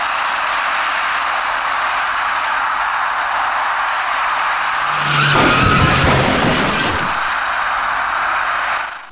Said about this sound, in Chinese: 一辆在绿灯指引下由西向东正常通行的出租车，因为司机采取措施不及，把那位骑车人撞翻在路口里。